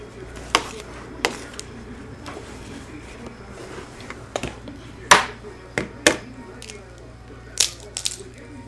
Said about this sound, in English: I'm still mixing it. I mix it a long time so it's all smooth and creamy.